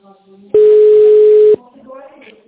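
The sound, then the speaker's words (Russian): Telephone ringback tone plays while a call is transferred: one loud, steady tone of about a second. Faint voice fragments come before and after it. “Ваш вызов переводится.”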